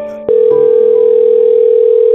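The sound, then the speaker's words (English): A telephone dial tone sounds as a phone call is placed: a loud, steady, unbroken tone that starts abruptly after a brief quieter moment and holds level to the end. “let's go ahead and get Katie on the phone.”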